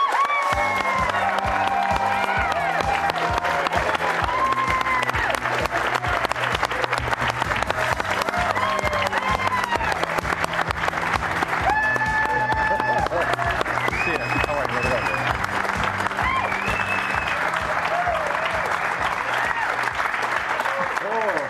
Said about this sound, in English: You've been on the show before, but never quite to an ovation like this.